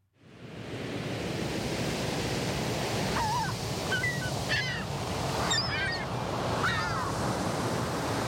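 Little penguins call on an ocean shore, with several short honking cries rising over a steady roar of surf.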